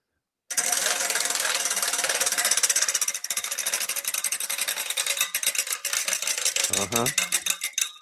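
A spinning prize wheel in a game segment makes a loud, dense ratcheting clatter that gradually breaks into distinct, more widely spaced ticks as the wheel slows.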